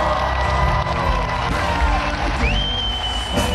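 Stadium crowd cheering at an Elton John concert near Lille, a continuous loud roar of shouts and whoops, with a high whistle rising and holding near the end.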